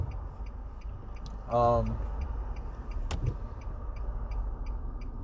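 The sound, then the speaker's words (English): Steady low rumble of a car being driven, constant engine and road noise with a single sharp click partway through. “I'm driving. My bad. You know how I go. I do these podcasts while I drive because I think a lot while I drive”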